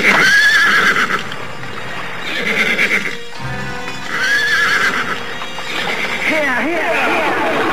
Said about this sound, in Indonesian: Segera saja para prajurit itu memacu kuda mereka.